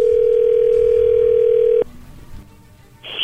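A steady telephone tone sounds as a call rings through, one loud continuous note holding for almost two seconds before cutting off abruptly, followed by near quiet and a short burst of noise at the end.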